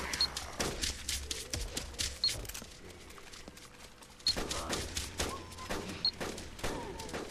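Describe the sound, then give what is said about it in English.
Gunfire with someone shooting: several sharp, loud shots and short bursts spread out, some much stronger than others, separated by quieter stretches of low rumble. “Somebody else is shooting. That's good.”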